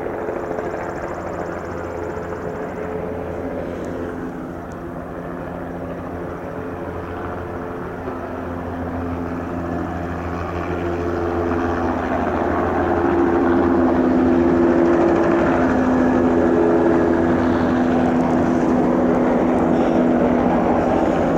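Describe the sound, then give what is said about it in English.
A helicopter flies over during aerial mosquito spraying, giving a continuous low engine and rotor drone with steady humming tones. The drone grows slightly louder through the second half. “the helicopter's back”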